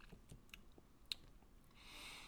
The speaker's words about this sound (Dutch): We eten eerst. Nou ben ik niet de allergrootste chocoladeliefhebber.